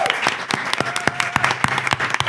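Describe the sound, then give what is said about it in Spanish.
A live audience applauds at an on-stage show, with dense, sharp, irregular handclaps running steadily and loudly through the whole clip. “Último aplauso para nuestro técnico Paco Gurni del podcast Días de Juego.”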